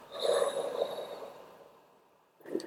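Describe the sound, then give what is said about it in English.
A deep breath drawn in slowly and then let out, soft and airy, closing with a short, stronger puff of breath after a brief pause. “Take a deep breath in, exhale.”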